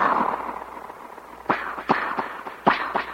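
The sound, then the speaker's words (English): Five sharp, cracking gunshot sound effects of the kind used in Western films come in quick, uneven succession after a short stretch of rushing noise. “It's as classical as the sound that you always hear in the Westerns when they shoot the gun”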